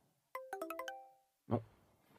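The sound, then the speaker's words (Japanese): A phone's incoming email notification chimes as a quick run of six bright, bell-like tones, followed by a short dull knock. “メールだ。”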